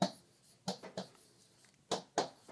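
Writing by hand: several short, quiet scratchy pen strokes, some in quick pairs, separated by near silence.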